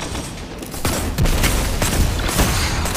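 Gunfire and bow shots during a first-person shooter video game match, with several sharp, loud bursts punching through a dense, continuous bed of rapid shooting and booms.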